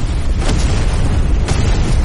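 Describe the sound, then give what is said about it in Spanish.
Several explosions go off underground as tunnels collapse, a deep continuous rumble broken by two sharper booming bursts. “Se producen varias explosiones bajo la superficie. Los túneles se derrumban.”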